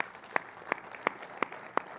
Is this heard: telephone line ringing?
no